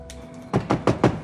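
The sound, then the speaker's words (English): Knocking on a window: four quick, evenly spaced raps, fairly loud and crisp, following a short quiet stretch. “She looks up to see Zig knocking on the window.”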